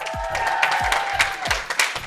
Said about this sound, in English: Can I hear the live audience in the building,